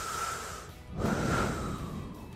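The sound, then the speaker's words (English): A deep breath, an airy, rushing intake that swells louder midway and then tapers off, with no talking over it. “Deep breath.”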